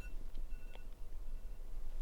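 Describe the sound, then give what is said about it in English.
Electronic alarm beeps from a phone or clock: a few brief, faint high-pitched tones that sit over a steady low rumble. “Sorry, that was my alarm.”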